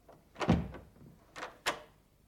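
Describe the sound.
A door being opened into a sparsely furnished attic kitchen: a dull thump followed by two quieter knocks, faint, with no voices.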